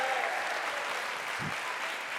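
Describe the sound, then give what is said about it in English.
A church audience clapping in praise to the Lord, a sustained, even wash of many hands applauding that stays steady throughout. “And everyone shouted, if you mean business, give the Lord a hand clap of praise.”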